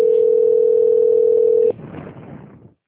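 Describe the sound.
A steady telephone tone plays while a call is transferred, holding one unbroken pitch for under two seconds. It cuts off abruptly into faint, rough line noise that fades out.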